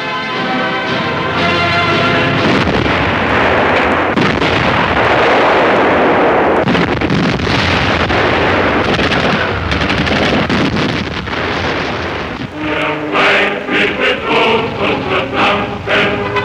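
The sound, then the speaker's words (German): Artillery fires on stubborn resistance positions, a loud, dense barrage of booms and crackling blasts that runs the whole time, with sharper separate bursts near the end. “Besonders hartnäckige Widerstandsnester werden durch Artillerie niedergekämpft.”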